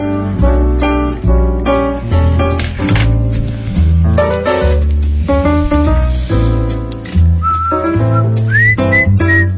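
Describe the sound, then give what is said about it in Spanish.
A person whistles a lively tune, loud and clear, moving quickly between notes in a bouncing rhythm with a few sliding, upward-bending notes toward the end. “No, yo nunca he silbado, eres tú. No, eres tú. No, tú silbaste lindo.”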